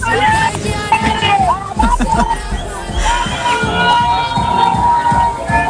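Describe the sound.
A village festival crowd at a peña in Valdezate, at night, is heard over a phone speaker. Dense babble from many voices mixes with tonal music and steady low thumping, loud and continuous throughout.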